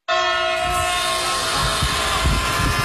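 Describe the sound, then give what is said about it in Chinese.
A high-speed train on the Ankara–Istanbul line across Turkey's Anatolian plateau rushes past, loud and sustained from an abrupt start, with a steady high tonal whine over rumbling rail noise. “如今古道驼铃早已远去，奔驰而过的高速列车成为丝绸之路上的新景观。”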